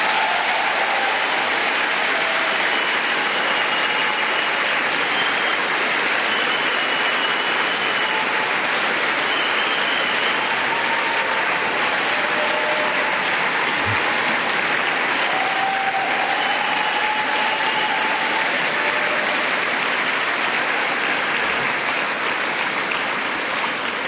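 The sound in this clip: Long, unbroken clapping from an audience at a talk on a religious theme. The dense, steady roar of many hands holds at an even level for the full length.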